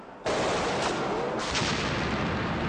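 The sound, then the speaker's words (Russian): Gunshots ring out in a tense scene: a sudden loud blast cuts in from quiet, with a couple of sharper shot bursts standing out over dense, continuous roaring noise. “Смотри, стрелял!”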